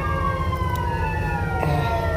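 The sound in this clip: An ambulance siren passing, a loud, continuous wailing tone that drifts slowly downward in pitch over a steady low rumble.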